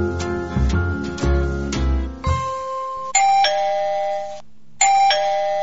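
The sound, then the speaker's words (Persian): Doorbell ringing at a front door, a few bright, sustained ding-dong chime tones sounding one after another with short gaps between them. “یک ساعت است که زنگ میزنم، کجاست که دروازه رو باز کنن؟”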